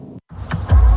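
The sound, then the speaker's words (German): A fully electric BMW drives, heard as a brief whoosh and a short silence, then a low whirring swell that grows steadily louder toward the end. “So klingt Fahrfreude. Mit den vollelektrischen BMW-Modellen genießen Sie grenzenlose Fahrfreude, ganz ohne Benzinkosten.”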